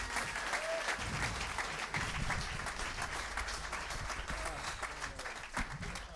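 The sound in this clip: Audience applause, a thick, continuous patter of many hands clapping at a steady, moderate level from start to finish.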